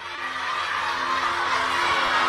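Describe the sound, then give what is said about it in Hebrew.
An audience roaring together in response to a wrong sentence during a live group game, a continuous, fairly loud wash of shouting voices that holds steady to the end. “והם יצטרכו בשאגה גדולה לעשות סדר במשפט”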